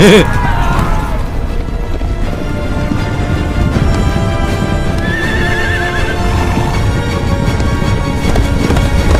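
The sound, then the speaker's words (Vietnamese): Horses gallop in a battle charge, with loud, dense, pounding hoofbeats throughout and a high whinny near the start. “Dăm ba con ngựa lùn.”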